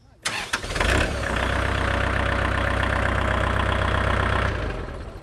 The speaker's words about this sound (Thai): หลังจากนั้นเราก็ทำการสตาร์ทเครื่อง